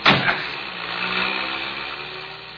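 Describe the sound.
A car engine starts with a sudden loud catch and cranking burst, then settles into a steady, even running rumble that gradually fades over a couple of seconds.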